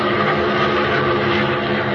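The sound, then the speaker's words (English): Steady engine roar from a swift, oddly shaped airplane flying at full throttle: a loud, broad, unbroken drone with no clear change in pitch over two seconds. “Holding the throttle, Batman sends his swift, oddly shaped plane zooming north”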